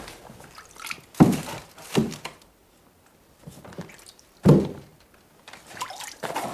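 Wet squishing and dripping as food is lifted out of water to drain, with three louder splashy thuds standing out from quieter trickles and drips between them.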